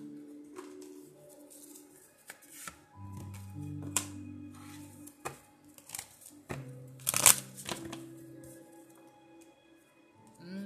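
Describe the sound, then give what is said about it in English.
Cards being handled: soft, scattered flicks and brushes of shuffling, with a few sharper snaps. The sounds are quiet and irregular, and no voices are heard. “Okay, I thought some cards had dropped.”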